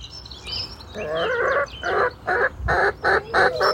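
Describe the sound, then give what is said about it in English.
Chicken clucking in a chicken run, heard as a rhythmic series of short, bright clucks that starts about a second in and repeats steadily to the end, fairly loud with no talk. “that's BB, one of my favourite chickens”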